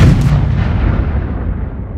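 A bomb explosion sound effect rumbles through the whole two seconds as a loud, sustained, low-heavy roar with no distinct separate blasts. It fades only slightly toward the end, and no voices are present.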